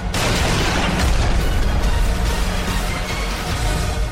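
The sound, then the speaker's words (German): A bomb explosion: a loud, dense roar that bursts in at once and then rumbles on steadily, without fading, for about four seconds, with no voices. “Nachdem er gesehen hatte, dass die Bombe explodiert war”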